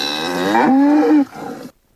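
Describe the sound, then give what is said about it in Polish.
A cow grazing reed beds as free pasture lets out one long, loud, low moo with a slight arch in pitch, then a fainter trailing groan that stops abruptly. “Krowy nie muszą spieszyć się z realizacją zadania. Mają na to czas do końca października. Czy rzeczywiście są zadowolone z takiej pracy?”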